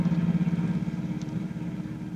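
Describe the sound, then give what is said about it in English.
Steady engine drone of a car being driven along a road to a camp near Washington, a low, even rumble that stays level throughout with no talk. “With Pat and Cecilia, she's driving down to visit her son at a camp near Washington.”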